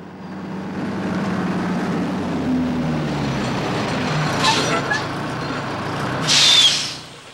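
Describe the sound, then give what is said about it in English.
A heavy rig truck with twin exhaust pipes drives at night, giving a steady low engine rumble, a brief hiss midway and a louder air-brake-like hiss near the end before it fades. “Now he drives through the night in his rig, headlights blazing and fumes trailing from its two exhaust pipes. The black and white image of the approaching truck appears on a security guard's monitor”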